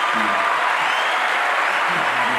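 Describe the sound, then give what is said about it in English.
An audience applauds after a film screening: steady, dense clapping that holds at an even level throughout with no pause. “give yourself double applause for that film, by the way.”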